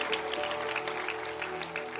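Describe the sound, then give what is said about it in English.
A church audience clapping their hands for the host during a service, a dense, even patter of many hands that holds steady at a moderate level from start to finish. “Oh, clap your hands for our host, Bishop Ogo.”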